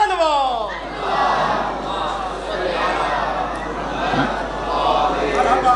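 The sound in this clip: A large crowd shouts a slogan in unison at a religious gathering honoring Hussain and the martyrs of Karbala, a loud, sustained roar of massed voices that holds steady for about six seconds.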